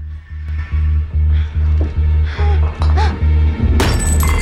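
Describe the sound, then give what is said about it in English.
Glass paperweight knocked off a desk and shattering on the floor: a sudden bright crash near the end follows a steady series of low, rhythmic thumps. “Rachel, who knocks the glass paperweight onto the floor”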